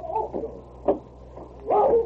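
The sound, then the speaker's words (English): A dog barking and howling, with a few short, yelping barks followed by a longer, drawn-out wavering howl at the end. Moderately loud, with no voices. “Now, if you'll excuse me, I'll do my best to stop King howling.”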